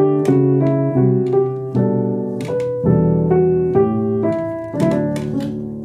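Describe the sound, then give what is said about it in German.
A jazz ii–V–I chord progression rings out over a driving bass line. A series of sustained, evenly spaced chords is played loud and alone, each one struck firmly and left to ring. “Ah, jetzt machen wir 2-5-1. Für die Jatzer unter uns.”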